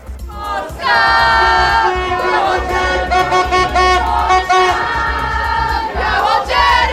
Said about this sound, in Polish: A najpierw tłumy kibiców na lotnisku Chopina, gratulacje i wywiady, później wizyta w kancelarii premiera.